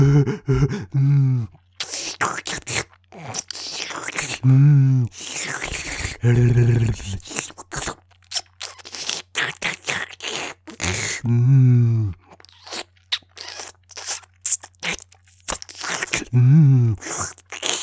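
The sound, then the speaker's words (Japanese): Kissing: many close, wet lip smacks and breathy mouth noises in an irregular, ongoing rhythm, with several soft voiced murmurs or hums spaced through them. “あなたの顔を見てたらキスしたくなっちゃいましたよ。”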